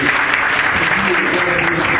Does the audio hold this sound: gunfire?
no